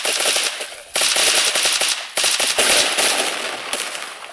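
Rapid automatic gunfire in a video game rattles out in three loud, sustained bursts separated by brief breaks.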